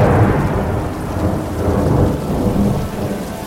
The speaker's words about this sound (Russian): Медленно поднимает лицо к зачинающемуся дождю.